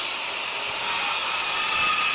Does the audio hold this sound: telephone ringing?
no